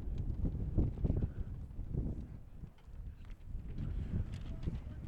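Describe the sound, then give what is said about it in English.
Strong wind buffets the microphone at an outdoor baseball game, a continuous low rumble whose gusts swell and ease throughout. “And this wind is whew, coming strong.”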